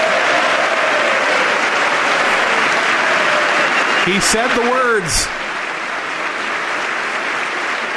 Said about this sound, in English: Saying the phrase got him a standing ovation.